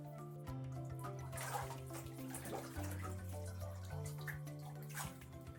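Warm water runs into a bathtub at home, a steady rushing splash that continues throughout, mixed under a light stepping melody of music.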